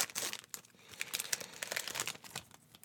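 Crinkling and crackling of a 30-year-old trading card pack's wrapper as it is torn open, a dense, continuous run of many sharp plastic crackles and rustles, fairly loud and steady throughout, with no voices.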